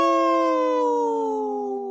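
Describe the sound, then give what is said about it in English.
A person imitates a wolf, howling a single drawn-out 'no' that glides slowly downward in pitch and fades slightly toward the end, alone and without other sounds. “See how I said no and howl at the same time?”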